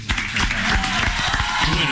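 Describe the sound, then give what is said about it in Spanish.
Applause from a studio audience for a group of young comedians, steady dense clapping that stays loud for the full two seconds with a voice faintly over it. “Así que un aplauso para los chicos. ¡Bravo!”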